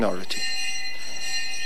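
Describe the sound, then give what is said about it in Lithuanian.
A monastery bell rings for lunch: one clear strike that hangs on as a steady, sustained metallic tone, with a brief voice just before it sounds. “Na štai ir vienuolyno varpas, kuris mus kviečia pietų.”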